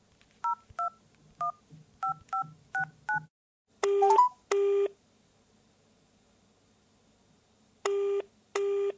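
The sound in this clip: Telephone keypad tones as a number is dialed for a late-night call: seven short, evenly spaced dual-tone beeps in quick succession, then two pairs of longer, louder buzzing line tones separated by silence.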